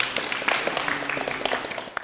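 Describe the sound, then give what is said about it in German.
Applause from a group of people, many quick sharp claps layered over a dense continuous patter, steady throughout without a clear build or fade. “Wenn Sie alle Fragen beantwortet haben, richtig natürlich, dann ist dieser Applaus für Sie.”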